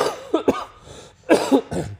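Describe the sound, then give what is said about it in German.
A person recovering from a severe cold coughs in two clusters of a few harsh, chesty coughs, with a short quiet gap between the bursts. “Ich muss leider immer mal wieder husten zwischendurch, denn ich habe gerade echt eine krasse Erkältung hinter mir”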